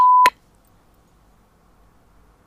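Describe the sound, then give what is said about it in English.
A censor bleep over a swear word: a steady, high, pure tone lasting a split second, then a brief sharp burst, followed by near silence. “It will be bleeped out.”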